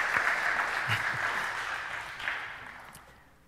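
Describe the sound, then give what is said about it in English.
Applause from an audience at a baptism, welcoming a woman forward; a dense, steady patter of many hands that gradually fades toward the end. “So let's put your hands together to welcome her.”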